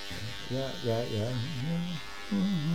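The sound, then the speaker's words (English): An electric shaver buzzes steadily while someone finishes shaving, and a voice with rising and falling pitch sounds over the hum for the whole clip. “Just want to, about ready to finish shaving here. I don't want to look unkempt for today's show,”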